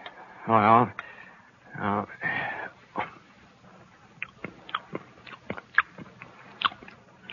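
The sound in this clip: Spoon clinks and small chewing sounds as a jar of home-preserved food is tasted, with brief vocal murmurs at the start, then many short, sharp ticks and clicks scattered at an uneven rhythm.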